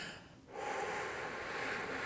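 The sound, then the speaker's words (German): A long, slow exhale used as a calming breathing exercise for shortness of breath: a steady breathy hiss lasting about a second and a half after a brief dip, with no talking. “Und was ich dann zum Beispiel mache, ist, ich atme dann ganz lange aus.”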